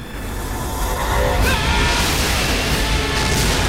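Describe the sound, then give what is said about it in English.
A huge structure explodes into an expanding fireball, heard as a dense, continuous roaring rumble that swells louder partway through and stays heavy to the end. “The entire structure explodes, and the Enterprise races away from the expanding fireball.”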